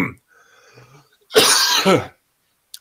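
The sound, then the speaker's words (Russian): A man coughs after choking: one loud, harsh cough burst, with faint small sounds before it and a brief click at the end. “поперхнулся, прошу прощения.”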